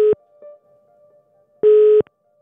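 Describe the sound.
Ringing tone of an outgoing telephone call: two short, steady beeps separated by a pause, over a faint continuous hum.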